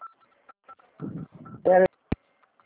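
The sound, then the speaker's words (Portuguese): Telephone keypad tones from buttons pressed during a phone call: a few short beeps among talking voices, with a loud burst of noise near the end. “Eu acho que a senhora está apertando algum botão aí.”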